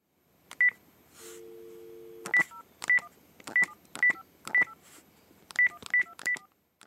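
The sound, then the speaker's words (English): Telephone keypad dialing tones as a number is dialed: a steady dial tone gives way to a quick run of sharp, evenly spaced electronic beeps, clear and alone. “He's dialing a number.”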